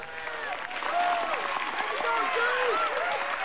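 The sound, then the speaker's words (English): Polite applause from a crowd at a school prom as a crown is placed, steady clapping that swells partway through, mixed with voices and shouts. “Priscilla scowls, but claps politely.”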